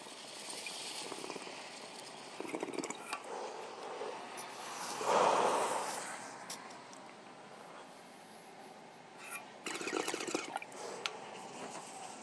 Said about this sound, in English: Sorry about the noise. I don't know what the hell it is, but Toronto is in the middle of a storm of some sort. It's raining heavily outside.